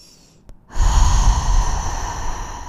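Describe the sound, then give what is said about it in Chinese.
A deep breath exhaled slowly through the mouth during seated meditation before sleep. A faint intake gives way to a long, loud, breathy exhale that gradually softens. “深深的吸气，吸到头顶，不要松掉，然后慢慢的从口腔呼出来。”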